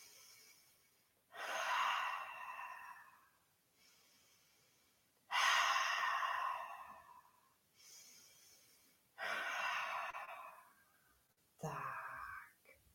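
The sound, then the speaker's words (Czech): Slow, deep breathing in and out at a calm, steady pace. Each long, audible exhale is louder and breathier than the soft inhale before it. “A pojďte se mnou nejdřív třikrát hluboko nadechnout a vydechnout.”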